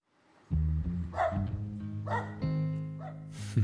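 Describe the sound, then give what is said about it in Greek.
A small dog barks and whines in a few drawn-out, tonal yips and whimpers that rise out of a sustained low humming cry, moderately loud, with no talk. “Αυτό που ακούτε είναι ένα σκυλάκι”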